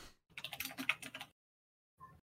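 Typing a name on a computer keyboard: a quick burst of rapid, soft keystrokes for about a second, then a pause and one brief final tap.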